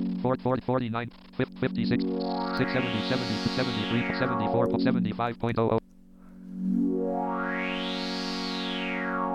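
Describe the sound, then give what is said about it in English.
Synthesizer tone with an LFO sweeping the filter cutoff and resonance increased, producing bright, whistling, wah-like sweeps that rise and fall, first over a choppy, stuttering pattern, then, after a short gap, over a sustained buzzy note. “So now we know that the LFO is moving the cutoff frequency, and now I'm going to increase the resonance of the filter.”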